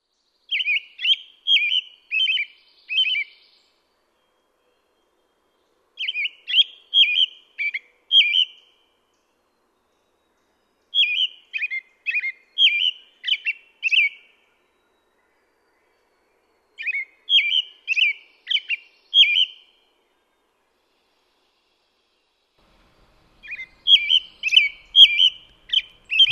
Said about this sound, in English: Well, let's listen to a robin then.